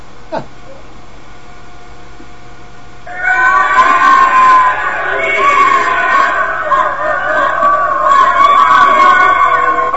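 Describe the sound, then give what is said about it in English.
A crowd shouts like an angry mob with pitchforks. After a few seconds of near quiet, many voices burst out together and keep up a loud, dense roar to the end. “That's just about enough out of you. Sounds like people at the gate with pitchforks.”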